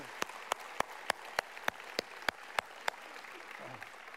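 Applause greets the band Remedy Drive. About ten sharp claps land in an even, regular rhythm over a faint background, then the sound drops away to quiet.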